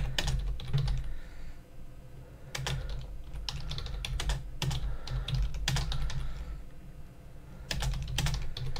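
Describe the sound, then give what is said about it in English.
Typing on a computer keyboard: several bursts of rapid key clicks separated by short pauses, over a steady low hum. “I have to type this in.”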